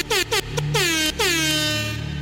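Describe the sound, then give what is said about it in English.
Air horn blasts ring out loud and alone: several short honks followed by one long sustained blast, each tone sliding downward in pitch. “That air horn went out to Lil Beefy.”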